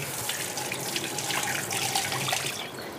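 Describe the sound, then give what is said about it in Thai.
Running tap water splashes steadily as small potatoes, to be eaten with their skins on, are rinsed before boiling. The rushing, hissy flow is continuous and even throughout, with no talking. “อันนี้เราก็จะมาจัดการกับมันฝรั่งลูกเล็กแบบนี้กินทั้งเปลือกก็อร่อยนะคุณผู้ชมแล้วก็ล้างนิดนึงแล้วก็เอามาต้มในน้ำเย็น”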